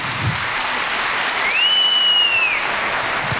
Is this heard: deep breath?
no